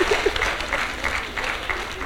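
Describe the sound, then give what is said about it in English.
Audience applause at a church gathering for a person who answered a Bible quiz question, a brisk patter of clapping at a steady level, with a brief voice near the start. “Oh, come on, give him a round of applause.”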